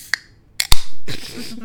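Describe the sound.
Fingers fumble at the tab of a drink can: a few sharp, isolated clicks and taps, followed by a steady, noisy rush that runs to the end.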